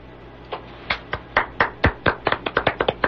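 Four radio amateurs clapping: sparse, crisp claps at first that quicken into a dense run of many quick claps, with no voices.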